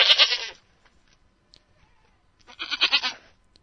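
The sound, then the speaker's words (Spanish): Two nasal, wavering bleats from an Iberian ibex, a wild mountain goat of Spain's Gredos massif, each lasting about half a second or more, separated by a quiet pause with only faint ticks. “Se puede decir que la verdadera artífice de la protección legal del macizo de Gredos fue la cabra montés”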